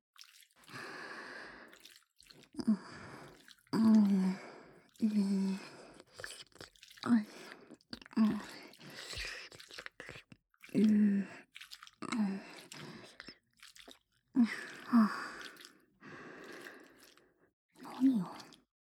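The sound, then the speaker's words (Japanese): Ramen noodles are being eaten, with many wet slurping and chewing bursts separated by short silences, some carrying a voiced, humming mouth tone. “私がラーメン食べたらダメなの？でしょ？”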